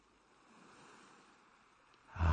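Ocean waves wash onto the shore in a slow, soft hiss that swells gently and then surges into a louder rush at the very end, with no voices present.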